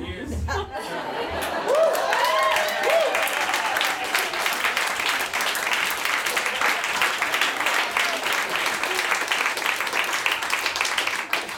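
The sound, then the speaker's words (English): Sustained audience applause at a live show, a dense wash of clapping with a little laughter that carries on steadily throughout while a voice talks over it. “Oh, more applause. This is great.”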